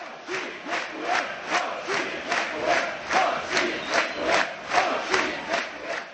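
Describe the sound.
Football fans celebrating a playoff win chant and cheer loudly in a steady rhythm, many regular pulses of massed voices following one another without a break.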